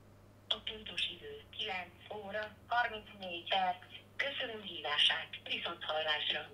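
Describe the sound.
A phone call on speaker to the Hungarian 180 speaking clock: a recorded voice announces the time in a thin, telephone-like tone over a low, steady hum.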